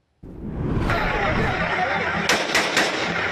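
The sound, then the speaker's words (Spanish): Gunfire from an assault rifle shot into the air during an attack on teachers of the national education workers' union in Oaxaca: a few sharp cracks stand out over a loud, continuous rush of background noise that begins abruptly. “Este es el momento en el que un sujeto con un rifle de asalto hace detonaciones al aire en contra de los maestros de la Coordinadora Nacional de Trabajadores de la Educación en el estado de Oaxaca”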